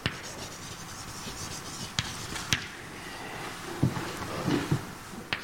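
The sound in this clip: Faint scratching and tapping of writing on a board during a probability lecture, with a few sharp taps standing out from a low steady background.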